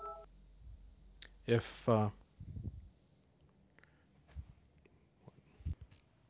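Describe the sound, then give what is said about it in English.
A phone's text message alert sounds as two short buzzing tones close together, set against quiet background sounds, with faint scattered noises and some soft speech afterward. “That was the first time I got a text message in the middle of a recording.”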